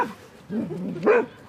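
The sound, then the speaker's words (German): An older dog at a dog training field yapping at younger dogs playing: a couple of short, whiny yips with a wavering pitch, fairly faint and heard alone. “Wenn die jüngeren Hunde spielen, dann kläfft er die an.”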